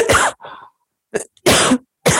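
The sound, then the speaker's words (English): A person with severe allergy issues coughs in a few sharp, breathy bursts separated by short silences, the later bursts louder and fuller than the first. “I'm going to cough. Sorry.”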